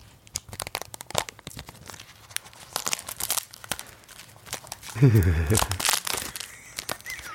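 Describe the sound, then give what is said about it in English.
Cellophane wrapping a box of stickers is punctured and torn close to the mic, giving many sharp crinkles and crackles under talking, then a louder burst of tearing and crumpling near the end. “I'm just going to open the cellophane. Now, this is the sort of thing that ASMR people would really enjoy. So I'm just going to puncture the cellophane. Do it right up to the mic.”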